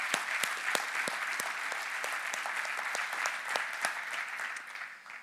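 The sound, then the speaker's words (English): A church audience gives another round of applause to people who have just shared their stories. The clapping is dense and lively, with a few sharper claps standing out, and it tapers off at the end. “Can we give them one more? I know you just clapped like 5 times”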